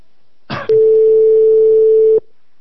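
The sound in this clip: A single steady ringing tone from an outgoing telephone call, lasting about one and a half seconds and loud, preceded by a short burst of noise and a click.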